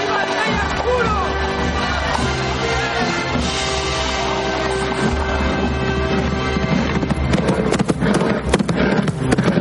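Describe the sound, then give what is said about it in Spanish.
Hooves clip-clop as horses walk slowly with their riders into a medieval town. The even clopping is heard under a dense, continuous wash of crowd noise and babble. “El rey y la dama cabalgan despacio, sonriendo orgullosos de sus monturas.”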